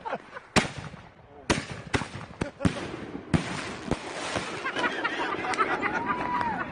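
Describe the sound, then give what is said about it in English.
Firework mortars being lit and launched, four set off at once: several sharp pops and thumps in quick, irregular succession, then a steady hissing crackle that carries on to the end. “we were trying to light four mortars at once”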